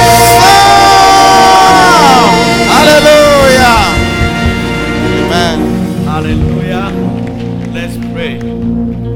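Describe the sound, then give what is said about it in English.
A church audience shouts and cheers to welcome a bishop at a service. Many voices whoop and shout loudly and without a break, forming a dense, sustained roar of the crowd. “Ladies and gentlemen, with a shout of faith, welcome Bishop Ishmael.”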